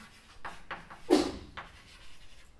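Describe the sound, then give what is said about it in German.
Writing on a board during a logic lecture: a few short scratchy strokes in quick succession, one louder and longer stroke near the middle, otherwise fairly faint against a quiet background. “Äh, ich schreibe es vielleicht daher.”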